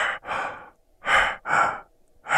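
Heavy breathing in a darkened room: a person drawing several deep, rasping breaths in quick in-and-out strokes, each lasting under half a second and separated by brief silences, loud and close with no talk.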